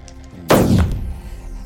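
One loud gunshot sound effect marks a long-range shot in a tabletop role-playing game, striking sharply after about half a second of low background and trailing off in a long, booming rumble.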